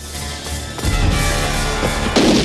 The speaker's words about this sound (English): An officer comes downstairs. Vagran shoots him.